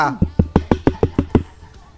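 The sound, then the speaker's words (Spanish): Knocking on a motel room door: eight quick, evenly spaced raps, sharp and loud, heard alone. “No, toca en la puerta.”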